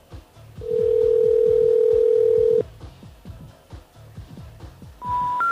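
An old landline phone gives a steady, loud dial tone for about two seconds, then it cuts off. A train of soft rhythmic clicks follows as a number is dialed, and higher beeps start at the very end.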